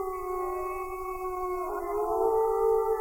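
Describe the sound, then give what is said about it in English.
Wolves howl in the wild, captured by hidden microphones: sustained, overlapping tonal howls hold steady and swell slightly louder toward the end above a faint low rumble. “what you're listening to right now is the actual recorded voices of wolves, not in a zoo, but in the wild, recorded by secret microphones hidden in the wilderness.”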